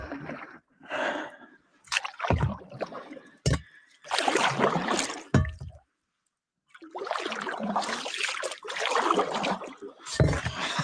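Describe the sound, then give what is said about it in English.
A cast iron pan used as a paddle splashes and sloshes through water in many irregular strokes, separated by brief quiet gaps, with a louder, denser run of paddling in the second half. “Can't believe I'm using a cast iron as a paddle.”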